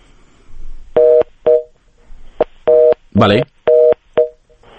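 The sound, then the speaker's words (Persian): Telephone disconnect tones after a dropped call: loud, steady, mid-pitched electronic beeps that repeat in a rough long-short pattern, with about six bursts separated by brief silent gaps. “ظاهرا به نظر میرسه که تماس تلفنی ما قطع شده”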